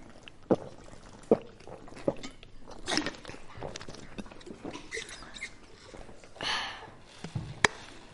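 Children drinking produce a few short, sharp sips and gulps spaced irregularly, with softer liquid and breathing noises in between.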